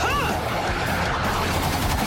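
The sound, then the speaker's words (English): Laser guns firing together in a dense, rapid barrage, loud and continuous from start to finish, with shots blurring into a steady crackling roar. “Fire the lasers! Together!”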